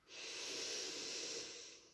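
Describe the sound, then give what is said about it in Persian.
One long, airy breath rises and fades during a guided breathing exercise, alone and without talk. “به همین ترتیب حالا ازت میخوام که 7 بار این کار رو انجام بدی با دم و بازدم. دم،”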